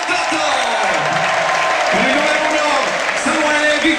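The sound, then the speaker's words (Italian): Stadium crowd applauding the Ascoli team's players as they are called up for a trophy presentation, a dense, continuous wash of clapping and crowd noise beneath a man's voice speaking over it. “Intanto un grande applauso per gli eroi bianconeri.”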